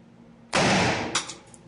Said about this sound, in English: This one's going to be a little bit louder. Now, look at the AR-15 round.